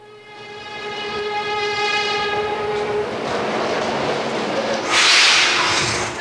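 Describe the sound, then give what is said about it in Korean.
A subway train passing through a station in front of city hall: a steady, horn-like tonal blast sounds for the first half over a rising rumble of wheels, then the rail noise swells into a louder rushing burst near the end. “동물원의 시청 앞 지하철역에서”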